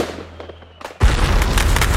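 Fireworks burst during a Territory Day celebration. A quiet, hissy lead-in gives way to a sudden loud blast that turns into a dense, sustained crackle until the end.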